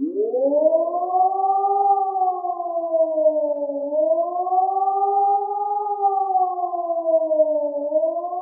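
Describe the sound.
A civil defense warning siren sounds for a natural disaster emergency. Its loud, continuous tone rises and falls slowly in a steady undulating wail, with no voices.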